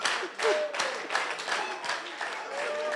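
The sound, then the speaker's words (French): Congregation applauding the Lord during a church service: a steady wash of clapping with a few sharper bursts, mixed with voices throughout. “On l'acclame, on acclame le Seigneur et on peut s'asseoir.”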